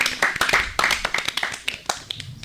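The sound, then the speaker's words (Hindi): Scattered hand clapping from a small group praising a correct answer in a quiz game, many sharp, uneven claps over murmuring voices. “बिल्कुल सही जवाब, जोरदार तालियां।”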